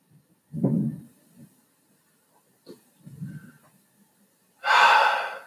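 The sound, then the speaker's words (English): Someone breathes in and out, a few separate breaths with pauses between them: soft, low breaths first, then a final louder, airy, hissing breath. “Breathe in, breathe out.”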